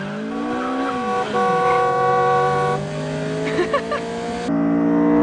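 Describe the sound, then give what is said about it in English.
A car races round a corner at high speed and skids into a full U-turn, the engine whining loudly over squealing tires before the sound drops away abruptly at the end. “Mia's car whizzes round a corner at high speed. She skids into a full U-turn and heads back down the road.”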